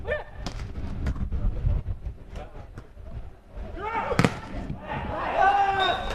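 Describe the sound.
A volleyball being served during a match lands as a single sharp smack, a brief loud impact standing out over continuous commentary and background crowd noise.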